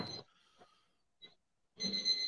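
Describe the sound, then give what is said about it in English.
An electronic kitchen timer alarm beeps in a house during cooking. Loud bursts of high, ringing beeps come at the start and again at the end, with a faint blip between. “Oh, I can hear the alarms going off in the house.”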